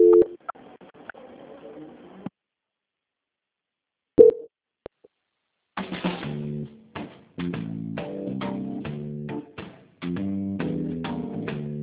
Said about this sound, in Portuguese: Porque vai ficar muda só por alguns instantes, só o tempo de eu transferir a ligação.